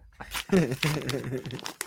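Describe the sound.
Paper wrapping, the environmentally friendly kind rather than plastic, crinkles and tears as it is opened in short, scratchy bursts under steady talking.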